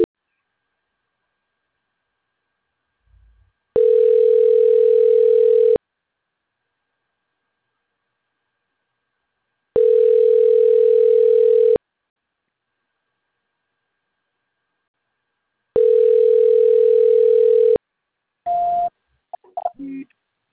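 Telephone line tone during a call transfer: three steady mid-pitched beeps, each about two seconds long with long silent gaps between, then a short tone and a few brief clicks.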